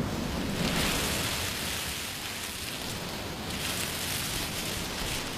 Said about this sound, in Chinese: 说把海螺放在耳边就能听到大海的声音，你听。